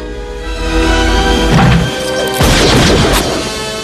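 Gunshots in a film duel between a father and son: two loud, harsh blasts in quick succession, ringing over sustained dramatic music.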